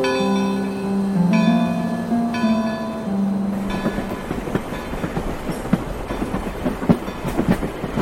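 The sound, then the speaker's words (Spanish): A ghost train on railway tracks in an audio drama: a sustained chord-like whistle tone holds for the first half, then gives way to a steady rolling clatter of wheels. “Pero no puede ser. Ha de ser un tren fantasma. Supongo que no tiene miedo. No, bueno. Subamos, así le sigo contando.”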